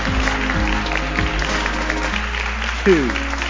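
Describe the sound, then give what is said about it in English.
A church audience applauds to welcome its senior pastor, with steady clapping held at an even level throughout. “Let's welcome Pastor JC, Senior and Lead Pastor of Gospel Lighthouse Church.”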